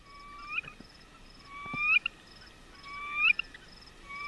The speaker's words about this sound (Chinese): 这是雄鸟的歌声